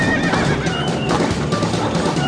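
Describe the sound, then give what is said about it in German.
A horse gives a loud, drawn-out whinny as a horse-drawn mail coach arrives. A continuous rumbling noise runs beneath it throughout. “Die Kutsche? Das ist sie, die Postkutsche. Pünktlich auf die Minute.”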